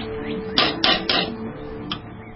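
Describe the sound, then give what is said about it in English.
Metallic clinks of coffee being scooped into a small, soot-blackened tin coffee pot: four sharp clanks, three in quick succession and then one more after a pause, over quiet background hiss. “scoops out some coffee and places it in the small tin coffee pot. The pot is black with soot”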